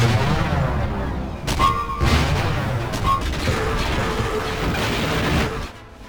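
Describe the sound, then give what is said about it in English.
Artillery batteries firing in a full attack produce a continuous barrage of booms, crashes and blasts. The loud, dense roar holds steadily for several seconds, then drops off sharply near the end. “Full attack! All batteries, fire!”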